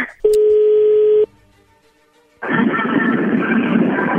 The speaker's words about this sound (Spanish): Bueno, vamos a llamarle a Lucio.